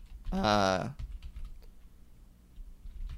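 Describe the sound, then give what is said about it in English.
Typing on a computer keyboard gives many quick, faint keystroke clicks in an irregular rhythm. A short voiced sound comes just before the typing. “I'm actually going to type it in right now.”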